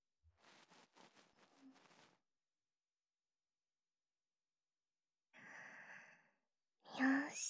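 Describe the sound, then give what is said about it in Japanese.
Gentle blowing into the listener's ear: very quiet, breathy puffs of air, first a cluster of short breaths, then after a pause two longer exhalations, the last one slightly stronger. “念のためにお耳ふうってするね。”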